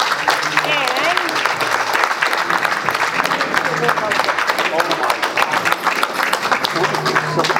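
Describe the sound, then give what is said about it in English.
Audience applause with dense, steady clapping that stays loud and even from start to finish. “Thank you very much. Let's give him another hand.”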